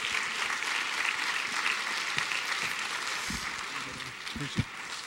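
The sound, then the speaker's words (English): Calvary church audience in Vancouver applauding to welcome a pastor, a sustained, full wash of clapping with a voice speaking over it and a few dull thumps near the end. “So Calvary, put your hands together and welcome Pastor Adam Sharp as he comes.”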